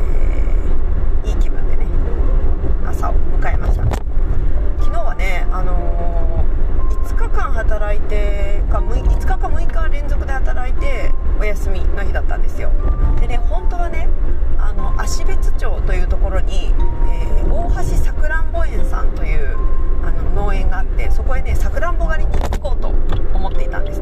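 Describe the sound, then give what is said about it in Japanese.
Interior of a car driving to work, with a steady low road rumble and engine hum running throughout and talking over it. “今ね車に乗ってまして、えー、職場にね向かっているところです”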